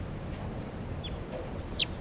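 A wild, light-coloured female crossbill calls in a few short, sharp, high chirps, clearest and loudest near the end, over a steady low background hiss.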